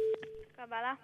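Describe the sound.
A steady, low ringing tone sounds on a phone line during a call to the Kfar HaMaccabiah hotel. It is loud at first, then continues faintly beneath a voice that briefly speaks over it.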